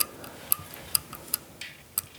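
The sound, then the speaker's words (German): Ticking of an alarm clock: a series of sharp, light clicks at a steady pace, about every half second, against faint background hiss. “Oh, guck mal, ein Wecker.”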